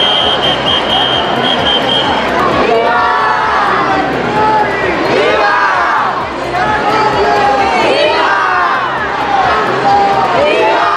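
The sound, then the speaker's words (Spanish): Thousands of people in Ceuta chant a welcome to the King and Queen, loud massed voices in repeated rhythmic phrases with crowd noise throughout. A steady high tone sounds during the first two seconds. “Ceuta, los Reyes son bienvenidos, han coreado miles de personas.”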